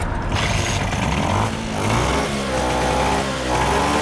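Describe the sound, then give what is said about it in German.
A Vespa scooter engine runs steadily after a repair and responds well to the throttle. Its buzzing, fairly loud tone rises a couple of times in intensity, with no talking. “Die Vespa läuft wieder und hängt gut am Gas.”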